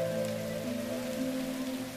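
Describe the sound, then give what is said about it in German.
Rain falls in a children's story as a weather hero conjures it, an even, continuous hiss of drops with a faint steady tone beneath, unchanging throughout. “Meistens scheint in Superstadt die Sonne. Aber wenn Regen gebraucht wird, können die Wetterhelden auch diesen hervorzaubern.”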